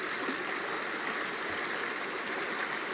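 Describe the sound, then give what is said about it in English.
A flowing stream gives a steady, even rush of water with no breaks, heard alone at a moderate level. “Gotta keep following this stream,”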